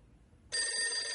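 A telephone rings in a room: a bright, high, steady ring begins abruptly after a near-silent opening and carries on unbroken to the end.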